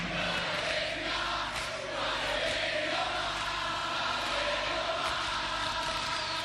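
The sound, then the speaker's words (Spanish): The audience at an Argentine rock concert of the 1970s cheers in a loud, dense, unbroken roar of many voices that holds steady for more than six seconds. “Público argentino en los 70s.”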